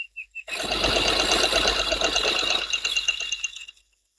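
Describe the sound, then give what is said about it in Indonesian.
A mother's sewing machine stitching: a few light clicks, then a steady, rapid mechanical whir for about three seconds that thins and fades out near the end. No voices. “Iya, tunggu sebentar sayang ya. Mama habis jahit baru bantu adik.”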